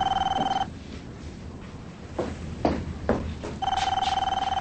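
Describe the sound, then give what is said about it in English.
A telephone rings in two trilling bursts, one at the start and one near the end, with quieter sounds in the gap between them. “Phone!”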